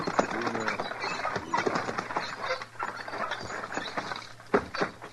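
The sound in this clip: Hooves of a team of horses being pulled up: scattered, overlapping clip-clop beats over a steady low hum, with a brief voice near the start.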